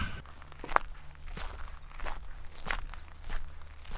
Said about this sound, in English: I wandered up the path as directed, as you can now hear.